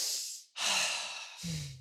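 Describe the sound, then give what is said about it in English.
Deep breathing taken as a calming pause: three airy breath sounds in a row, the middle one a long, full rushing inhale, the last carrying a low voiced tone. “So, moment of zen, deep inhale first.”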